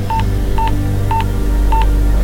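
Telephone keypad tones as a number is dialed by hand: five short, evenly spaced mid-pitched beeps over a low steady hum, with no voices.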